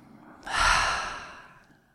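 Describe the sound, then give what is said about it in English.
A full breath let go through the mouth: a single soft, airy sigh that swells quickly and then tapers away slowly, heard alone with no talk. “let's take another full breath in through the nose. And open the mouth to let it go.”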